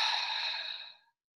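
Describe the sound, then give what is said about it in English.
A deep, intentional breath drawn in through the nose and gently let out during a breathwork exercise: one smooth, airy hiss, steady and fairly loud, tapering off to silence after about a second. “with that deep intentional inhale in through the nose and gently letting it out.”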